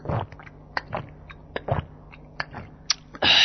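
A pregnant woman sips a little water: soft, irregular mouth and swallowing noises, a few distinct gulps, and a louder noise at the end.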